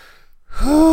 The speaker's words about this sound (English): Taking big breaths on the mic.